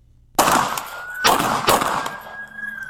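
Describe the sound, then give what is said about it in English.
Pistol gunshots ring out in three sharp, loud cracks, each with a ringing tail. A steady high-pitched whine lingers between and after the shots. “Now he just did 17 shots.”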